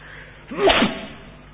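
A single sneeze bursts out during an Islamic jurisprudence lesson. It is a short, sharp rush of breath that rises and falls in under half a second over a low, steady background hiss.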